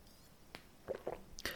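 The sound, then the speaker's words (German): Someone takes a quick sip of a drink: a few soft, wet mouth and swallowing sounds, very quiet over a faint background hiss. “Muss mal eben einen Schluck trinken.”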